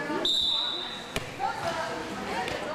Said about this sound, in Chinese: 我现在就要发球了，接球。